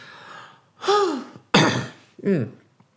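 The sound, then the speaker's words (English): A deep breath taken close into the microphone, heard as three loud breathy bursts, a long inhale and gusty exhales, some carrying a faint falling voiced tone. “So here we go, live breath just for you.”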